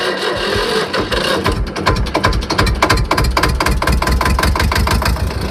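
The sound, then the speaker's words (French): Old tractor engine running, a loud, fast, steady chugging with rhythmic mechanical knocks that continue throughout without pause. “On a toutes les marques un peu, des tracteurs qui fonctionnent, d'autres qui fonctionnent moins bien. La plupart démarrent quand même au quart de tour. La preuve.”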